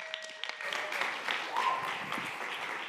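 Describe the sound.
Applause fills a church as the audience welcomes a speaker, a continuous wash of many clapping hands held at a steady level, with a faint thin tone drifting over it.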